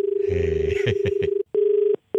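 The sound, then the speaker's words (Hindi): Electronic telephone ring tone during a call: a steady mid-pitched tone with muffled sounds over it, then breaking into short, evenly spaced on-off tone bursts. “तुम्हारे यहाँ bell बजी तो मेरे यहाँ हो जाएगा। अरे फोन मैंने नहीं किया यार, फोन आपने यहाँ बेल बजी यार, मेरे यहाँ भी बेल बजी है।”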